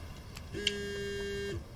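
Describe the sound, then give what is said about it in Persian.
A phone ringing, heard as a single steady electronic buzzing tone that holds for about a second before cutting off. “این تلفنم که همیشه بد موقع زنگ میخوره.”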